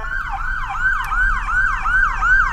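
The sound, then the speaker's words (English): A state police car's siren yelps as it passes on the road going the opposite way, rapid rising-and-falling sweeps repeating steadily and loudly over low road rumble. “Oh, here comes a police car coming the other way.”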